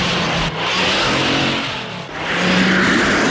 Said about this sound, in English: She squeezes between several stock cars and speeds ahead.